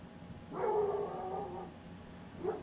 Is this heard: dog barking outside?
yes